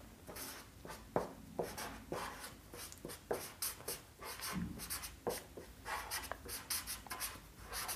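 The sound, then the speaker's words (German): A pen scratches across paper, held at a slant while writing from the side. Many short, faint strokes come in an uneven rhythm, with no talk. “Ich schreibe ein bisschen schräg, weil ich von der Seite schreibe.”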